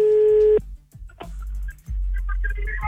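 A telephone call being dialed: a steady line tone cuts off, followed by a few clicks and a run of short, high beeping tones over a low hum.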